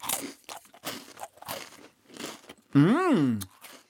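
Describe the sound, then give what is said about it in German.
Crisp crunches of a thin, crunchy biscuit resembling a butter biscuit, a Serbian sweet, being snapped and bitten: several short dry cracks in an uneven rhythm, then a brief hummed voice rising and falling in pitch. “Es ist so lang wie mein Daumen, würde ich sagen, aber ganz dünn. Und es sieht aus ein bisschen aus wie ein Butterkeks. Ich breche den mal durch. Und ich esse mal.”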